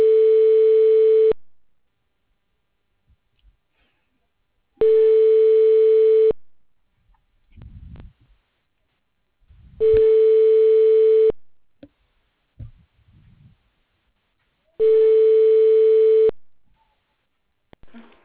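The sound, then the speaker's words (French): Telephone ringback tone while a call is transferred, four long, steady mid-pitched tones with even gaps between them, plus faint clicks and rustles in the pauses. “Je transfère votre appel.”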